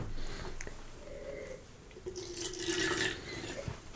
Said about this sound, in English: After that, we rinsed our glasses.